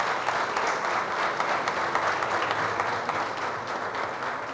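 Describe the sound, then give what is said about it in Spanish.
An audience applauds the national police at a municipal government event in Girardot. The clapping is dense and steady, stays loud for the whole stretch, and no talking is heard over it. “Yo sí quiero que aplaudamos a la policía.”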